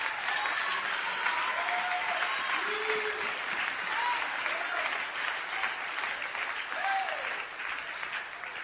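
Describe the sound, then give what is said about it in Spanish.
Audience applause at a motivational talk, a steady and fairly faint wash of many hands clapping that lasts the whole clip without a clear peak. “Que el aplauso sea más grande que para el Señor.”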